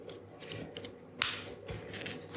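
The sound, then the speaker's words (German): Scissors cut open the next page of an escape room puzzle book, giving a few crisp, papery snips with one sharper, louder cut in the middle. “Dann geht es jetzt weiter mit dem Escape Room. Und ich muss die nächste Seite aufschneiden.”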